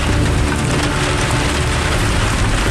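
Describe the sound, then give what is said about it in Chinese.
Heavy rain pouring down in the mountains, a loud, dense, unbroken hiss that holds steady throughout. “今天这个雨有点太大了，估计这个还打雷”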